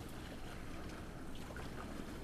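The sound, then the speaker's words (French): Surf washes and waves lap against reefs in a soft, steady hiss of water that never breaks into separate crashes. “particulièrement ces sons de du ressac, du clapotis des vagues contre ces récifs,”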